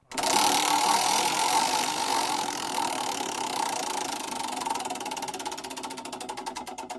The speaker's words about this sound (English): really spin this wheel hard because I need some time.